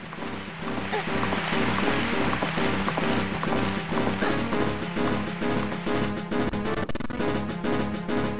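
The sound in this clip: Horse galloping in a video game, with quick rhythmic hoofbeats that stay loud and steady throughout against a dense, busy backdrop.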